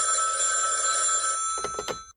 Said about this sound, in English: could you answer the phone, please?